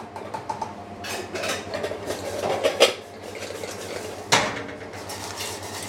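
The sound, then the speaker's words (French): Cockles dropping into a pot of boiling white wine and a lid being put on, a few metallic clinks and clatters with one sharp clank standing out. “On plonge les coques. C'est bien de garder la chaleur, donc on va garder le couvercle.”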